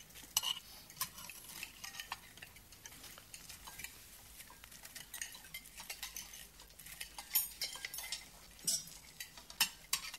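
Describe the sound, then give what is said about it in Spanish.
A spoon scoops quail sauce from a dish in a dining room: many faint, light clicks and scrapes of cutlery against tableware, irregular and quiet, with a few louder taps toward the end. “En el comedor, el general toma una cucharada de la salsa de codorniz en sarcófago.”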